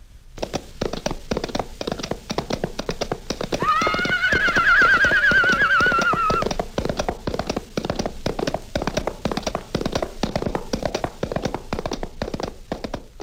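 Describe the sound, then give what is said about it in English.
Hoofbeats made with coconut shells as a sound effect for old-time radio drama: a brisk, continuous galloping clatter of many quick taps, with a horse whinny rising over them midway and fading out while the galloping rhythm carries on. “who would have thought that Silver would turn out to be just a set of plungers or four coconut shells or four hands galloping across a hollow box?”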